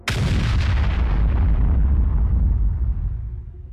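An explosion in a combat setting near the shore: one sharp, loud blast, then a heavy low rumbling roar that slowly fades over a few seconds.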